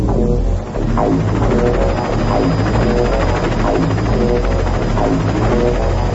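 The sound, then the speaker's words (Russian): A brightly painted helicopter circles over a small town, its rotor making a steady, loud, throbbing drone that runs unbroken from start to end. “Над городком кружил вертолет, ярко раскрашенный, нарядный.”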